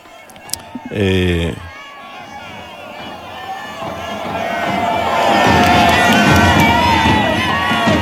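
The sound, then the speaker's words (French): A crowd cheers on Saint Peter's Square for the Pope. A short loud cry comes near the start, then the massed cheering swells and grows louder through the second half. “Vous pouvez, en fond, vous entendez toujours les vives à Il Papa.”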